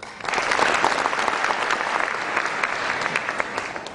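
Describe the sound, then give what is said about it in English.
Sustained audience applause welcoming speaker Dr. Victor Stenger to a lecture, a loud, even wash of many hands clapping that swells in quickly and holds steady throughout, with no voices over it. “Please join me in welcoming Dr. Stenger.”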